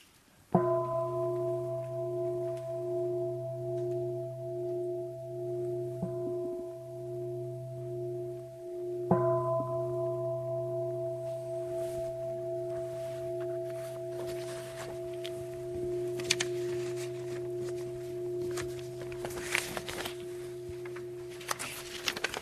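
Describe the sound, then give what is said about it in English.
A meditation bell is struck twice to end a meditation talk. Each strike gives a clear, pure ringing tone that sustains and slowly fades, and the second strike rings on for many seconds, followed by faint rustles near the end. “Let us have the bell ring as the ending.”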